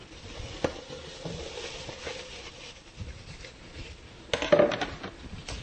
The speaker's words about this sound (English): I'll throw in our green peppers.